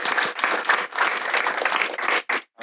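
Audience clapping at a live event, egged on to get as loud as possible: dense, sustained applause with no voices, broken by a brief dip and ending in one short final burst after a gap.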